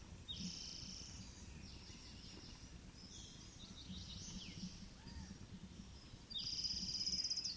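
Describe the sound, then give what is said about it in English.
An orange-crowned warbler sings thin, high chirping phrases, ending in a brighter rapid trill. The song is faint over a steady low background hiss. “Orange Crown Warbler.”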